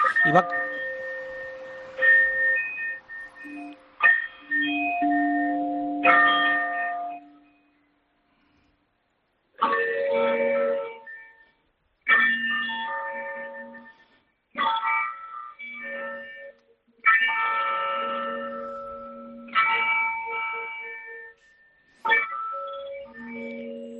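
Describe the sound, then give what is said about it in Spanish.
Church tower clock in Zaidín chiming the 9 a.m. time signal: a melodic run of ringing bell tones for the quarters, a short silence, then slow, evenly spaced bell strikes, each ringing out and decaying before the next. “vamos a esperar que suenen las señales horarias que indican que son las 9 de la mañana en el reloj de Zaidín, en el reloj situado en la torre de la iglesia, que debería empezar a sonar ya mismo.”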